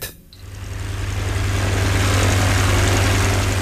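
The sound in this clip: Propeller engine of a sport airplane heard from the cockpit in a 1970 setting: a loud, steady, low droning roar that dips briefly at the start, then builds and holds evenly throughout, with no talking.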